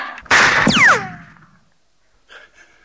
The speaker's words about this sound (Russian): Ну-ка, уберите пистолет. Назад! Спокойно, я сказал! Назад! Пустите! Отпустите! Отпусти пистолет!